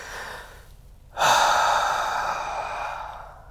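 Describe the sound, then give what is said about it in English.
A single deep breath: after a quiet opening, a loud, breathy rush of air begins about a third of the way in and holds steady, slowly fading toward the end. “I'll take a deep breath.”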